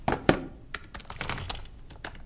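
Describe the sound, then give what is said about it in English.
Typing on a laptop keyboard while walking: an irregular run of sharp key clicks and taps with a couple of louder thumps near the start, moderately quiet, with no voices. “Why are you typing on a laptop whilst walking?”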